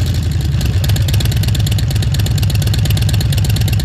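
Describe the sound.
A motorcycle engine, the kind of machine commonly ridden in the United States, runs steadily at a loud, even idle with a deep, throbbing low rumble and no voices over it.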